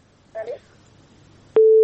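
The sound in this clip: A telephone line tone as a call is placed: a brief faint murmur, then a click and a loud, steady mid-pitched tone that holds unbroken to the end.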